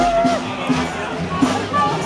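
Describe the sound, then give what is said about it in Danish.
Crowd noise from a street party of new high-school graduates celebrating in Esbjerg, Denmark: a continuous murmur of many voices with occasional louder shouts. “Ja, det her, det er lyden af fest i gaden, og gaden, den lå i Esbjerg i dag tidligere, hvor masser af unger fejrede, at de nu var blevet studenter.”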